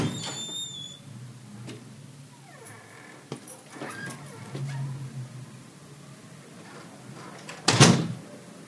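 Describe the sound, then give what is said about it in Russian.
A door is closed as a man steps into his father's apartment, with faint shuffling and rattling before a single loud, sharp thud near the end. “Закрыл дверь, стоит в коридоре.”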